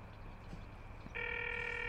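A telephone rings while the caller waits for someone to answer. A steady, bright electronic ring tone starts partway through and holds to the end over a low background hum.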